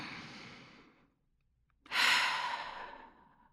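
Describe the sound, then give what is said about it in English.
A woman takes a deep breath. A soft, airy breath fades out, a brief silence follows, then a louder, fuller rush of breath swells and slowly tapers away. “We hear her take a deep breath.”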